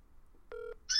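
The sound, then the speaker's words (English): A phone ringback tone plays on an unanswered call just before it goes to voicemail. It is one short, steady electronic tone, then a brighter, higher tone starts loudly at the very end. “I think it's got one more ring to it, then it goes to voicemail.”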